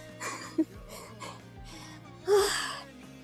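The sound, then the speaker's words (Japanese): Heavy, rough breathing from one person: a series of ragged, wheezy breaths with a short catch early on and a louder gasping breath near the end. “呼吸がね、ちょっと荒いね。”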